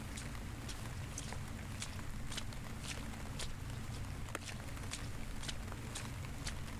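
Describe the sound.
People walk home together in a quiet, even rhythm of footsteps. The steps are faint and land about twice a second over a constant soft hiss.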